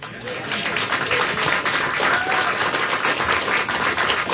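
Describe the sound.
A live studio audience applauding at a classical music event: a thick, even wash of clapping that starts just after the opening and carries on steadily to the end, with a voice talking over it.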